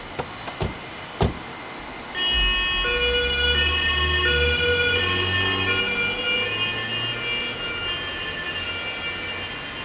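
A police patrol car siren: after a few sharp clicks, loud wailing tones start and hold steadily to the end, with no voices.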